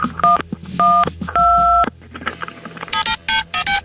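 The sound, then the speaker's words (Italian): Telephone keypad tones being dialed: three dual-tone beeps of differing lengths over low background noise, followed after a pause by a quicker run of several higher, more clipped tones. “Avete sentito i tasti del suo telefono? E io allora gli metto dei suoni diversi per confonderla, così è convinta di chiamare il 112.”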